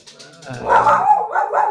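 A dog barks indoors at home in a few short, loud bursts, yappy barks rising into a harsher, fuller bark, with no talk over it.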